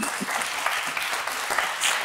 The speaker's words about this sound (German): Es gab zwei Herren, die hier gerade frenetisch geklatscht haben. Der Rest war eher höflich.